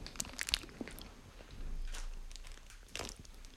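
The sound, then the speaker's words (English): Crunchy bites into a peanut butter filled snack, faint and close, with a few crisp cracks at the start, softer chewing through the middle, then another bite near the end. “I'll eat it. I don't care what you put in it. It smells amazing. Oh, wow. Peanut butter smell.”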